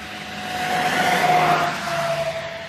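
Cars driving noisily, their engine roar swelling and then easing over a few seconds, with a steady whine running through it and no voices.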